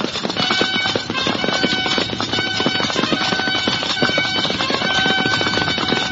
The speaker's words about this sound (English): Come, let us ride up to the top of the pass. Quickly.